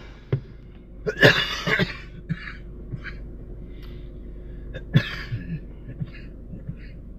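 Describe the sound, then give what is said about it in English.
A person coughs after smoking, letting out a burst of harsh, hacking coughs, then quieter breaths and a few lighter coughs and throat sounds that trail off. “You can choke. It's okay. I'm not gonna make you hold your breath smoking”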